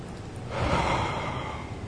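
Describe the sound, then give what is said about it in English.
A deep breath drawn in unison with a leader, heard as a soft, steady breathy hiss that swells in about halfway through and holds for the remaining second or so, with no talking. “Can you all take a deep breath with me?”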